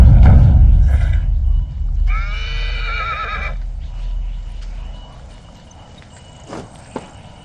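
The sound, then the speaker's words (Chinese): A horse whinnies once in a long, shaky neigh during a troops' night march, standing out over a steady low rumble, followed later by a couple of faint sharp clicks. “这马谁负责？”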